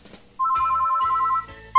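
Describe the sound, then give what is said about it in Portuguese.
Ringback tone of an outgoing phone call: a single steady electronic beep lasting about a second, followed by silence, then the next ring just starting at the end. No one speaks. “Vamos ligar aqui agora. Piscando, né? Começou a chamar.”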